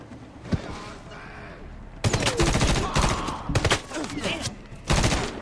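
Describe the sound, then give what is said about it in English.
Gunfire and grenade action in a video game firefight: rapid volleys of shots, quieter at first, then louder dense bursts that stop and start several times. “Nades. Nades are already happening.”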